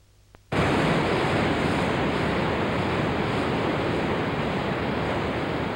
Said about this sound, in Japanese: お主、あの滝が切れるか。 滝を切る。